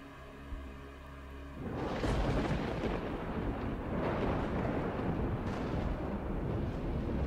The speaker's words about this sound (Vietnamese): Sau đó là tiếng sấm long trời lở đất vang lên.